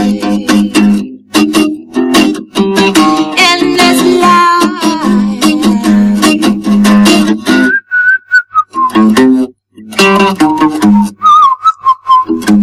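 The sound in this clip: A person whistling a tune, loud and clear, with many quick and sustained notes over low instrumental backing, broken by a few brief pauses near the end.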